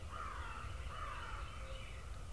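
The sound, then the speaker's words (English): A crow caws a few times, its hoarse, drawn-out calls rising faintly above a steady low rumble of background noise. “that crow is pretty vocal. And he's pretty loud.”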